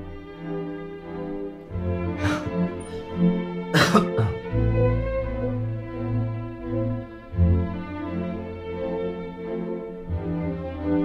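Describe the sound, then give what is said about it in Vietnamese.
A man, an old man in a kitchen, clears his throat with a couple of harsh, gravelly bursts over a steady, sustained tonal background that continues before and after. “Lão Năm đi vào trong bếp, đảo mắt nhìn quanh một lần, rồi lão gằn tằng hắng cái giọng”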